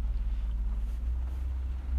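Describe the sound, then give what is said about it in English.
A bus passes outside a parked car, heard from inside as a steady, deep engine rumble and low drone with no talking. “there's a bus going past now. That's going to be really noisy on this take. That's okay. That's what I get for recording it in my car.”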